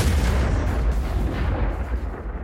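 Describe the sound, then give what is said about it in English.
Loud explosion rolling out as a deep, continuous roar that fills the whole clip, heavy in the low end, with no separate blasts standing out. “A loud explosion occurs behind me,”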